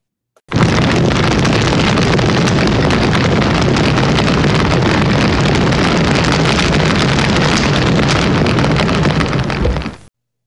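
A fire sound effect: a loud, dense, roaring crackle that starts abruptly, holds steady for about ten seconds, then cuts off.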